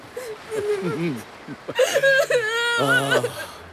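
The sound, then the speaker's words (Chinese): A child whimpers and cries in short, wavering, high-pitched bursts that end in a longer, sustained wail. “好孩子，不哭啊，不哭。”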